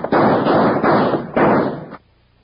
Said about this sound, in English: In the split second it took Mel Sutter to recognize Wild Bill Hickok and Jingles in the half-dark, Gadsden's guns began to bark.